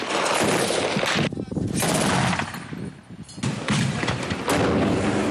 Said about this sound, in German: Kampfjets, Artillerie, Mörsergranaten. Das syrische Staatsfernsehen zeigt immer wieder, was Machthaber Bashar al-Assad aufbietet, um die Rebellen in Ost-Aleppo in die Knie zu zwingen.